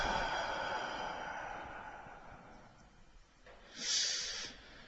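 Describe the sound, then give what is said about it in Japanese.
A forceful exhale during a breathing relaxation exercise: a long, breathy hiss slowly fades, then a short, sharp burst of breath puffs out near the end. “じゃあ体を、さらにリラックスさせましょう。吐きながら少し緊張させて、ふっ、そして吐く。吸って、ふっ、はぁ。”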